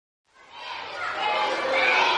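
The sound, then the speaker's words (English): Excited small schoolboys in uniform flooding through the corridors of a newly opened primary school in Khartoum, Sudan: a dense wash of children's chatter and shouting that swells in from silence and stays loud. “At a newly opened primary school in Sudan's capital, Khartoum, small excited boys in uniform are flooding through the corridors in a two-story block”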